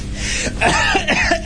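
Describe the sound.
Throat clearing: a few rough, raspy bursts spread over about a second and a half, fairly loud and heard alone without any talk.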